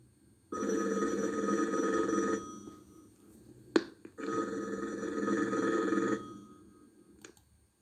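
A telephone ringing twice, each ring a steady, trilling electronic tone lasting about two seconds, separated by a short pause with a sharp click between, fairly quiet and alone.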